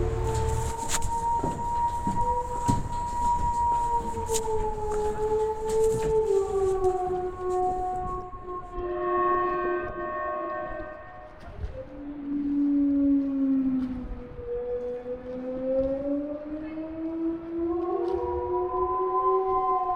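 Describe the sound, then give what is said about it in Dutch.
Wailing alarm siren, a repaired outdoor warning siren, sounding alone as a loud, continuous harmonic tone that slowly sags and swells in pitch over about twenty seconds. “Ik moest er een beetje van schrikken, want ik wist niet wat het was. Het leek een beetje op het geluid van The Purge. Het is een film waar dan 12 uur een alarm gaat”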